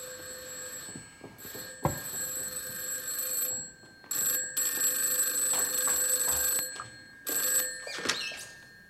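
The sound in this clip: A telephone bell rings in repeated bright, buzzing bursts separated by short pauses, loud and insistent with a steady metallic tone.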